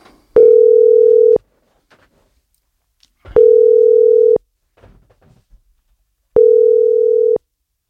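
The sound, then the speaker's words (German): Ringback tone heard while an outgoing phone call connects: three steady, mid-pitched tones, each about a second long, separated by roughly two-second gaps with only faint clicks between them. “Ich würde dir eigentlich gerne anrufen, um ein paar Fragen zu stellen. Jetzt machen wir doch das und schauen, ob er abnimmt.”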